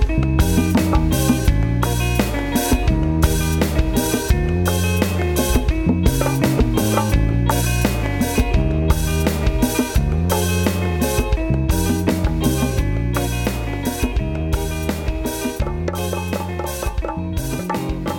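Live band music plays loud and continuous throughout, with a steady, driving beat and heavy bass under dense, full-range instrumentation. No talking is heard.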